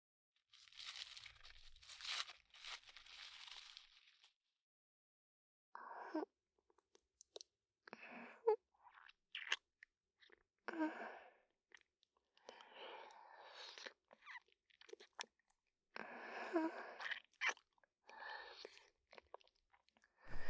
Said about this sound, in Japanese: キャラメルもう一個食べよう。